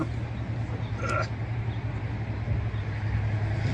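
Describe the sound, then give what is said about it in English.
A railroad turntable at the Colorado Railroad Museum being pushed around by hand. A low, continuous rumble holds steady throughout, with a brief high squeak near the start. “our host at the Colorado Railroad Museum. And part of our video here, he turned this turntable around. I'm going to help him push it back to where it was.”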